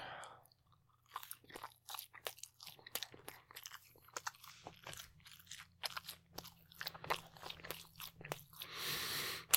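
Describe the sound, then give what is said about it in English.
Crunchy chewing and biting on a last bite of food: many crisp crunches in an irregular, steady rhythm, faint throughout, with no talking. “All right, last bite.”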